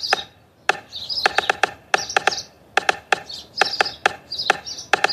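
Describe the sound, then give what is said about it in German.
A person imitates a stork clattering its bill with sharp, dry wooden clicks in quick irregular runs, separated by brief pauses, with faint high squeaky chirps between the runs. “Um sich verständigen zu können, klappen Störche ihren Schnabel auf und zu, sodass ein klapperndes Geräusch entsteht. In der Tat, ich demonstriere.”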